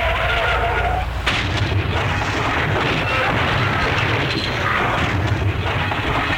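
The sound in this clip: A car skids and crashes in a radio promo sound effect. Loud, harsh, roaring noise fills the whole clip, broken only by a brief dip early on.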